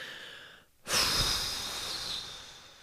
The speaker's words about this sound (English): Let's take a deep breath.